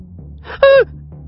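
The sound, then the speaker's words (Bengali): A woman's sharp, startled gasp of horror on discovering a dead man: a single brief voiced intake that falls slightly in pitch, standing out loudly over a low, steady background drone. “Animesh মারা গেছে, আঁতকে ওঠে শুভ্রা।”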